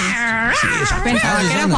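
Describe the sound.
A person imitates a cat with a whiny, wavering voice. Several drawn-out, meow-like moans rise and fall in pitch, loud and without other sounds.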